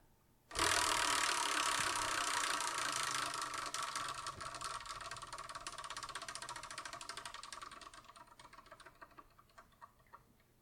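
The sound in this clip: A selection wheel spins with a sudden burst of rapid ticking clicks that stays loud and dense for several seconds, then gradually slows and thins into sparse, separate ticks before stopping.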